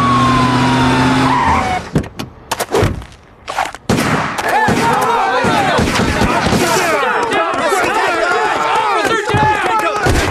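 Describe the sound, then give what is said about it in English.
Police gunfire at a crime scene: loud, dense bursts of many rapid shots with shouting voices mixed in, following a sustained tone and a few sharp cracks early on. “Stop firing, what are you doing?”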